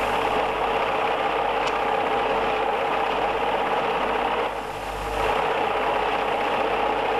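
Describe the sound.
A sewing machine stitching cloth gives a steady, continuous mechanical whirr that holds an even level throughout, with one brief dip near the end and no voices.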